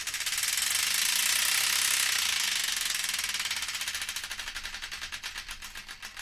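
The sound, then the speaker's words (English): A prize wheel given another spin, heard as a loud, dense rattle of rapid clicks. The clicks gradually slow into separate, widening ticks as the wheel winds down. “it's once again time to give the Wheel of Destiny another spin.”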